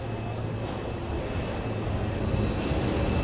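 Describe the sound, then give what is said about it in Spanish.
Steady broad rumble of an airplane being towed on a runway by ground crew: a continuous engine-like drone with no breaks or changes. “Vemos ese avión que han conseguido darle la vuelta, remolcarlo por completo, como había dicho el comandante.”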